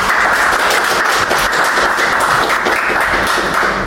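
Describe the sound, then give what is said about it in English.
Audience applause and clapping welcomes a host to the mic at a live event: a dense, steady wash of many hands that stays loud and even throughout. “So if you can please put your hand together and welcome to the mic, Cheryl Morgan.”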